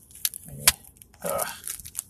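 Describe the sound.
Tape tears and packaging crinkles as a mailed role-playing game book package is opened, with faint sharp crackles and snaps followed by longer rasping tearing passages.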